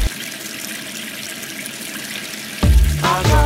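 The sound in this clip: Steady hiss of water pouring from an open tap runs continuously for a few seconds, then a voice begins speaking over the flow.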